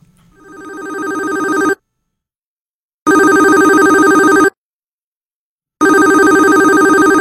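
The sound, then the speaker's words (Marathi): A telephone rings as a call is placed: three loud electronic ring bursts, each lasting over a second and separated by silent gaps, with the first one swelling in. “थांबा, मी थेट त्यांना फोनच लावते.”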